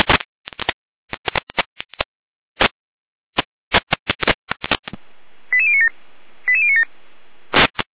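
Emergency dispatch alerting tones for a radio alarm: a rapid, irregular series of short electronic beeps, then a sustained tone with two warbling bursts, ending in one final beep.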